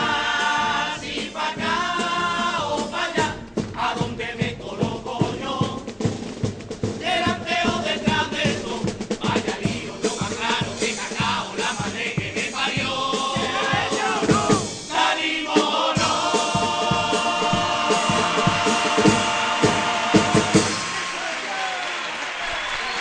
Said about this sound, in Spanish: Bueno, el público se vuelve loco en la presentación de esta gente que no saben si salir o no salir, indecisos totales.